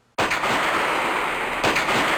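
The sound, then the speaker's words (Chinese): Gunfire breaking out on all sides around a cave dwelling: a sudden sharp blast opens into sustained crackling, rumbling noise, with a second burst hitting near the end, loud and without voices. “这个时候，四周突然传来啪啪的枪声”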